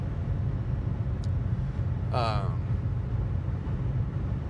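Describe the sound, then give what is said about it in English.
A car on a highway speeding back up to 70 mph: a steady, loud low road and engine rumble runs throughout without a break. “I'm driving by one of the sheriffs. Hello, Mr. Sheriff. I'm going to go ahead and speed back up to 70.”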